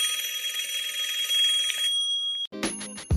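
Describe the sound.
A telephone ringing with a sustained high electronic trill for about two seconds, then a brief gap and a different, choppier tonal burst.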